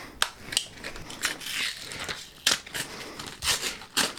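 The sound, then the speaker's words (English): Paper crinkling and tearing as a present containing a cassette tape is unwrapped, in several sharp, irregular bursts of rustle with quieter crackling in between. “All right, I'm going to open my present.”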